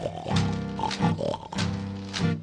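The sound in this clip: Pigs oink in a string of several nasal, voiced grunts with short pauses between them, moderately loud and alone, with no talk over them.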